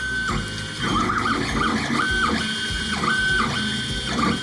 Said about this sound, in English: Do you know what that is? It's the sound of the machine that could disrupt manufacturing as we know it. It's a 3D printer.